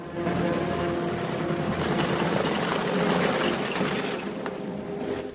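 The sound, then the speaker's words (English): Planes rumbling down a landing strip, a steady, broad engine drone that swells slightly and stays loud and continuous throughout. “The planes start to rumble down the landing strip.”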